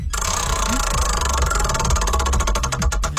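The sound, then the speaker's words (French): Prize wheel spinning: a rapid, continuous stream of ticking clicks whose strikes spread further apart toward the end as the wheel slows, over a low, steady background rumble. “On va tourner la roue pour toi.”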